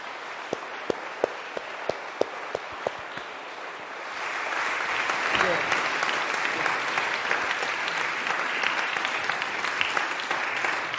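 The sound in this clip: An audience applauds to welcome a speaker. A few scattered claps come first, then the applause swells into a fuller, steady wash of clapping that continues to the end.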